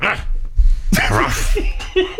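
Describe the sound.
A person imitates a dog's yapping bark with the voice during an animal-sound guessing game. A few sharp, loud, barking bursts rise out of a rough, breathy background.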